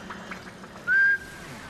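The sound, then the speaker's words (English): A person gives one short whistled note to switch on a bottled electric light. The clear, high tone slides up briefly and then holds steady for a moment against a faint, quiet background. “It turns on with a whistle.”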